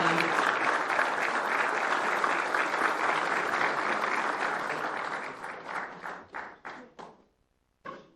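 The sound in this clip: Audience applause for award winners at a city council ceremony in Bosanska Krupa: a sustained crowd clapping that thins into a few scattered claps, a brief silence, then one last clap.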